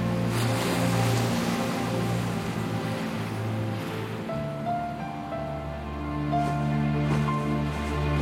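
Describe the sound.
Sea waves wash in a steady, broad rushing surge that rises and falls gently beneath sustained musical tones.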